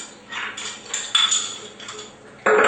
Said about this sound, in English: I was going to make sun-dried olive bread, so I'm going to chop up the sun-dried olives quickly. These have been dried with rosemary